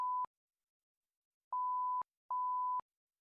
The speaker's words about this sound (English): Am I supposed to beep for that?